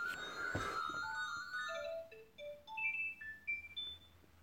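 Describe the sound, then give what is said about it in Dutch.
A phone rings in an office with a faint melodic ringtone of clear, stepped beeps. The notes step down in pitch and then climb higher over a few seconds. “Excuseer, er belt iemand. Super irritant.”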